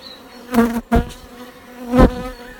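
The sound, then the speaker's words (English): Bees drone steadily around an opened, healthy hive during a spring inspection. Their humming is overlaid by a few louder rustling thumps as the hive is handled. “Just been stung through the gloves. I think we'll put everything back now and let them just get on, but I can see that that's a nice healthy hive.”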